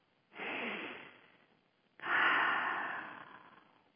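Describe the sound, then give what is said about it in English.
Deep breaths taken during a guided meditation: two long, airy breath sounds. The second is stronger and slowly fades, with quiet between them and no talking. “So close your eyes and take a deep breath.”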